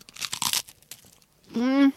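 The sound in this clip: Crunching on a white cheddar flavored snack: a burst of crisp, crackly bites, then a short hummed vocal sound.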